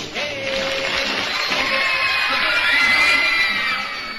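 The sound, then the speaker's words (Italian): Studio audience of an Italian radio record show cheering and shouting: a steady, loud mass of many voices whooping and calling out together, with high excited cries riding on top throughout. “Su con la sigla e gli applausi!”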